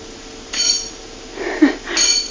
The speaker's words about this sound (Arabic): ما أحسن رنين خلاخلك، ألا تتوقفين لحظة؟